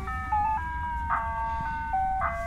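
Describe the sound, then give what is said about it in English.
Synthetic vehicle tones as the vehicle brakes and slows to a stop: layered, sustained electronic notes that shift in steps, with brief bright swells around one and two seconds, over a low rumble. “So listen, now I'm gonna slow down, I'm gonna put on the brake. Listen.”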